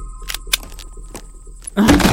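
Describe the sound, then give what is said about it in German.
A door being opened in a German radio drama: a few sharp clicks and light knocks like a latch or lock working. A sudden louder, sustained noise cuts in at the very end. “Ich mache jetzt die Tür auf.”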